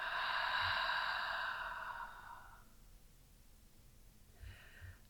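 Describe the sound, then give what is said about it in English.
A deep breath in and out, taken while sitting with the spine lifted: a long, breathy rush of air that lasts over two seconds and fades into quiet, followed by the faint start of another breath near the end. “Lifting the spine up and taking a deep breath in. And out.”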